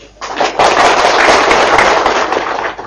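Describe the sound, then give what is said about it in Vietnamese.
Applause from an audience at a Buddhist dharma talk on chanting Amitabha's name: dense, crackling clapping that rises quickly and holds steady for nearly three seconds before thinning at the end. “Nghe rồi mà cũng vỗ tay nữa.”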